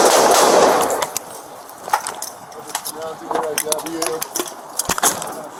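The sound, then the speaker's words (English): Gunshots fired during a tense police confrontation, a few sharp cracks scattered through the stretch amid urgent shouting voices and scuffling noise. “Shots fired. Let's go in there, we gotta move to lead here. Shots fired.”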